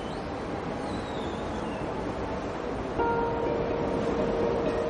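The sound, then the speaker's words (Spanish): A train pulling away from a platform after its carriage door closes, a steady rumbling wash with a thin tonal whine joining partway through as the noise grows slightly louder. “La puerta del vagón se cierra. Ella se queda en el andén mientras el tren se aleja.”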